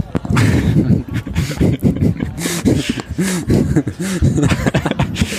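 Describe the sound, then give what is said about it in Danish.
Bumps and thumps of a microphone being handled and adjusted at a live jazz club, scattered irregularly through the stretch while people talk over them. “Ja, der bliver leget lidt med mikrofonen. Ja, der skal lige indstilles nogle flinkere her.”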